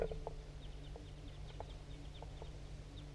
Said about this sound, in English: Wait. There goes another one. Big flock of crossbills just flew over.